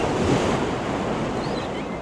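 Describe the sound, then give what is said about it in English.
Ocean waves of the incoming tide rush onto a beach in a steady, loud wash of surf, with wind buffeting across it. “Oh, man, I hate when the tide comes in.”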